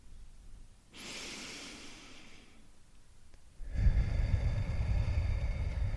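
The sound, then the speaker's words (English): A deep breath is drawn in through the nose and let out through the mouth. A soft, airy inhale is followed by a louder, fuller rushing exhale, with no talking. “Take a deep breath in uh, through your nose and afterwards exhale through your mouth.”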